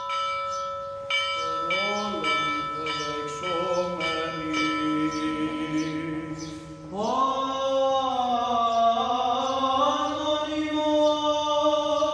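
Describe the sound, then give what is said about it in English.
Church bells ring at a Sunday morning liturgy in a monastery chapel on a small island, with repeated clanging strikes beneath sustained, slowly gliding chanted voices that swell louder midway and continue to the end. “This is the sound of a Sunday morning liturgy in the chapel of the Halki Monastery on the tiny island of Hebeliada.”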